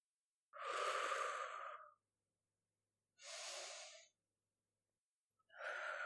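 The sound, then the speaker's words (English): Deep breathing by a person: three long, heavy breaths with soft gaps between them. Each is a rushing, breathy sound of about a second, and the last is cut off at the end. “So you and I are just going to take some deep breaths.”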